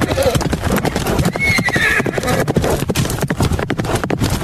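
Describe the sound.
A horse's hooves clip-clop in a quick, continuous rhythm of many beats, and a high whinny breaks in partway through.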